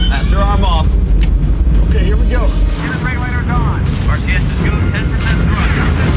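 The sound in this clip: Rocket engine ignition at launch: a loud, continuous, rough roaring rumble that fills the whole clip, with voices talking over it.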